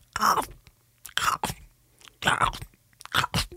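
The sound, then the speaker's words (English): A voice imitates someone noisily crunching popcorn while eating, in several harsh, breathy crunching bursts separated by short pauses. “there was a lady behind me who was eating popcorn, and all I could hear for about the first 40 minutes was,”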